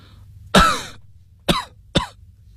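A man coughs violently three times: the first cough is loudest and longest and rasps off into a wheeze, then two shorter, sharper coughs follow about half a second apart.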